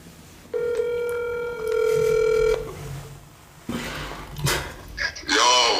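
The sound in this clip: One electronic telephone ring sounds on a call line, steady and about two seconds long. After a pause, people begin talking.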